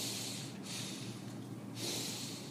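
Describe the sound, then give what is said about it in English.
Breathing in: two airy, hissing inhales separated by a short pause, soft and close with no talk. “You know that we take breaths like that 960 times an hour?”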